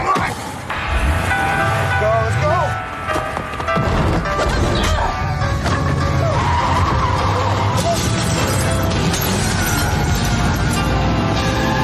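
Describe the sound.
Car driving with its tires skidding and squealing, a dense, loud and continuous roar of engine and tire noise that keeps going without a break.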